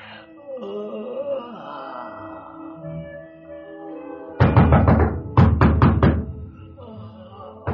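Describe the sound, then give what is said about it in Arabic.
Knocking on a door in a radio drama scene: two rapid volleys of loud, hollow knocks follow a drowsy, moaning voice, with quieter voice sounds between and after. “الله يهديك يا اللي قلقت نومي. مين اللي بيخبر؟”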